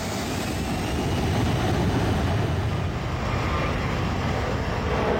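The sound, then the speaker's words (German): Roar of a jet engine as a government jet in Iran speeds down a runway for takeoff: a loud, dense, steady rush with a thin high whine on top, continuing throughout. “Ali Akbar macht den Jet bereit, rollt über die Startbahn, beschleunigt und hebt ab”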